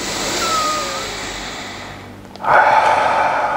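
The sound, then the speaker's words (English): A deep breath is let out through the mouth as a loud, rushing exhale near the end, after a quieter, softer stretch of breathing. “just take a deep inhale and just let it go through the mouth. And again.”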